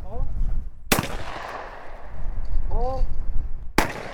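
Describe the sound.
Shotguns fire at clay targets on an open field during a school clay target team practice. Two sharp, loud blasts come a few seconds apart, with voices talking in between.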